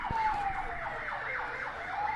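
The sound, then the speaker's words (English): A fire engine siren wails outside near a truck crash at a bridge, repeating rising and falling sweeps in a steady, insistent cycle that holds loud throughout with no voices. “some sort of fire engine. I think some idiot has driven a truck into a bridge near my house.”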